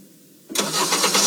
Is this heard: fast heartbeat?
no